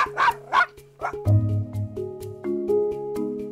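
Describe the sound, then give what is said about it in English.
Barking from a large St. Bernard and a small Chihuahua: a few rough, punchy barks open the sequence, followed by higher, drawn-out yelps and whining tones that run on unevenly. “the vocal quality of the barks easily gives away the size of the dog. The lower-pitched dog is a large St. Bernard, while high-pitched Fido is a small Chihuahua.”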